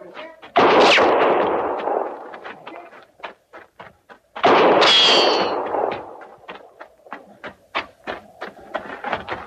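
Gunshots fired at a horse in a radio drama: two loud, ringing blasts several seconds apart, each with a long decaying tail, followed by a scatter of sharp clicks and taps.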